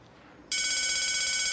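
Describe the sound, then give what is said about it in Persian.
A telephone rings: after a brief near-silent moment, a loud, steady electronic ring with bright, layered tones starts abruptly and continues unbroken to the end, with no voices over it. “زنگ نجاتت داد.”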